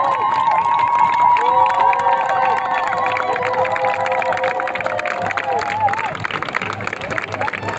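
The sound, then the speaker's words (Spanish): Activists of the Mexican delegation cheering as they pass by, during a gathering for the Global Sumud Flotilla to Gaza: a sustained crowd roar with high shouted voices and whoops rising over a busy murmur, loud and continuous throughout. “las compañeras de la delegación de México, la estarán aplaudiendo, activistas desde México.”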